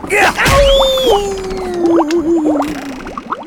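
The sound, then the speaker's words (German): A cartoon punch lands, a magic-potion-powered blow that launches a man high into the air: a sharp whack near the start, a springy boing, then a long sliding whistle tone with scattered chirps and squeaks. “Grünix versetzt Greulix dank des Zaubertranks einen so heftigen Schlag, dass er hoch in die Luft katapultiert wird.”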